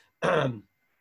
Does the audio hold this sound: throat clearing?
yes